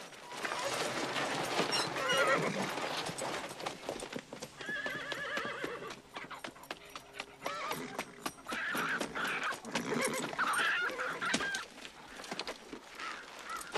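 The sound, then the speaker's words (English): Horses neigh and gallop off, with a dense, steady run of hoof clip-clops lasting throughout and whinnies rising above the rapid rhythm. “As soon as they open the gates, Carmen is waiting with the horses. Still pointing his gun at Guapo, Lucky joins them, and they gallop off.”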